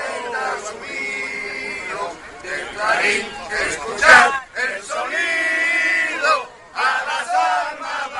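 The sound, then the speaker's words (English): Protesters in Doral, Florida chant and shout together, a loud crowd of voices rising in a few repeated bursts with short pauses between phrases. “From protesters in Doral this week.”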